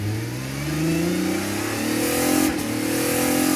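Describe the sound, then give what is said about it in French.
A Formula One single-seater accelerating flat out on the pit straight during free practice. Its loud, continuous engine note climbs steadily in pitch as revs rise, breaks briefly, then keeps climbing. “Une fois sur la ligne droite des stands, le pilote enfonce l'accélérateur jusqu'à la butée.”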